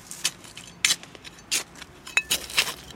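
A planting hole is dug in garden soil for strawberries: a series of sharp, gritty scrapes and clinks come in an irregular rhythm, many strokes in quick succession.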